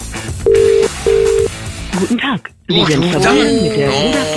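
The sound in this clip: Ringback tone from an outgoing telephone call during a radio morning show: two long, steady, low beeps with a short gap between them, followed by voices talking over the line.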